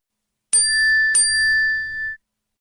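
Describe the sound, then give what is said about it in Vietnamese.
A phone's message notification chime for an incoming chat message plays two bright, high dings in quick succession. The second ding rings out in a clear, sustained tone before fading. The chimes sound alone, with no voices. “Chẳng ngờ, chính vào lúc này, điện thoại của Triệu Ngọc lại vang lên. Thì ra có người gửi tin nhắn WeChat cho hắn.”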